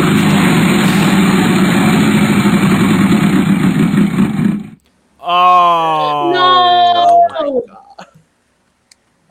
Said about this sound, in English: Okay, spin the wheel.